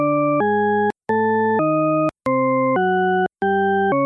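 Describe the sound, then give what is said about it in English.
Tritone paradox tone pairs play loudly with no voices: smooth, organ-like complex tones presented in pairs of two sustained notes back to back. Brief silent gaps separate the pairs, giving three complete pairs and the start of a fourth. “What you're hearing is Diana Deutsch's tritone paradox.”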